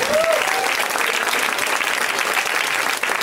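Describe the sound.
Audience applause for a guest: dense, steady clapping fills the whole stretch at an even loudness, with a brief faint tone near the start.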